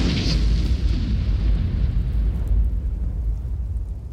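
Explosion as a creature whose eyes burn with fire ruptures: a loud, dense roar of deep rumble with a brighter burst at the very start, holding steady for about four seconds before easing slightly at the end.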